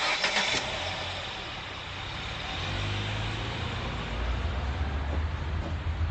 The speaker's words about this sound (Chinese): 走吧，开车。 好， 往前开。